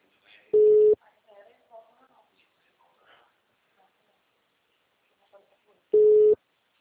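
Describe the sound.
An unanswered telephone call rings back to the caller as two steady mid-pitched tone bursts about five seconds apart, with faint scattered sounds in the quiet gap between them.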